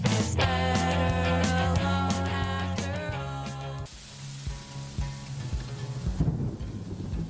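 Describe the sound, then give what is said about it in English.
A rainstorm with thunder brings steady rain hiss and low rumbles. Sustained musical tones play through the first half, then fade to leave the rain and thunder alone. “Comes to a rainstorm, the soundtrack we hear is everything. Birds or thunder shape the mood and tell a story.”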